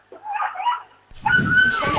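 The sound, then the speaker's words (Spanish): A small dog whimpers in the rain, giving a short, high, wavering whine of under a second. A steady, loud hiss follows and continues to the end. “¿Estáis matando a un gato aquí detrás o...? No, es un perrete, pobrecito. ¡Ay, el perrete! Que llueve, y el pobrecito se quiere ir.”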